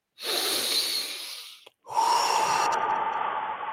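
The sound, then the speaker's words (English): A deep breath, drawn in through the nose and let out through the mouth: two long, loud, airy rushes of about one and a half seconds each, separated by a brief gap, with no talking. “Nose in, mouth out, as much to the belly as you can. If not, just breathe deep in.”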